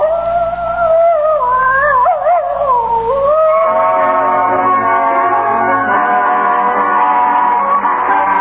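A spotted female hound, Bugle Ann, howls across the hills in a loud, wavering cry whose pitch bends up and down before settling into a long, steady, drawn-out tone.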